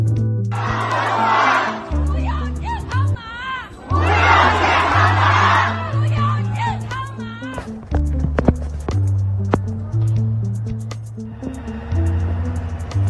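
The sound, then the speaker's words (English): A protest crowd in China chants against the zero-COVID policy and PCR testing, with loud bursts of many voices shouting in rhythmic unison, broken by pauses, over steady low sustained tones. “What you just heard there is a protest of a group of people screaming out power to the people, as well as saying no more PCR tests.”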